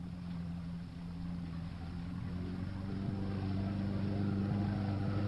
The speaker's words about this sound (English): Look, someone's coming. It's a motorboat cutting through the surf and heading our way.